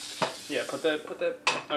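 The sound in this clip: Banana and egg crepe batter poured into a hot pan, sizzling with a steady hiss under people talking, with a couple of sharper bursts.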